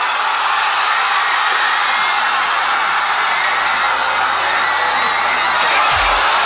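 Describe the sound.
Spain supporters roar and cheer in celebration of a Spanish victory, a dense, steady crowd din that holds loud and unbroken throughout.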